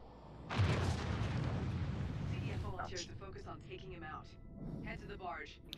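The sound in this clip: Nonstop gunfire in a video game siege, a dense, rumbling barrage down a hallway that runs throughout, with players talking over the shooting.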